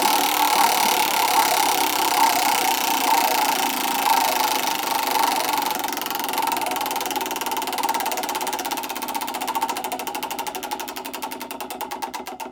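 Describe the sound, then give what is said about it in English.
A prize wheel spun during a turn-taking confession game, giving a steady, rapid mechanical ticking and whirring that runs evenly at a moderate level throughout, with no voices. “Spin the wheel.”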